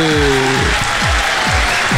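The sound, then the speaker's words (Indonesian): Applause rings out during a Malay-language morning show, a dense, loud and steady wash of clapping for a listener. Voices call out over it in several short falling cries. “Ya, tapi saya nak berikan tepukan untuk Kak Lina sekali. Ha, tu dia.”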